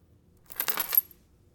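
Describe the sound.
A necklace drops with a brief metallic jingle and rattle lasting about half a second, heard alone against near silence.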